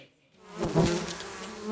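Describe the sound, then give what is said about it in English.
Stingless Melipona bees buzzing at an opened beehive in the Amazon rainforest of southeastern Peru: a low, droning hum swells out of near silence and holds steady, faint and continuous. “There is no danger in opening this beehive without protection gear. These bees are stingless, the Melipona bees, a species as gentle as it is vital for the health of the rainforest.”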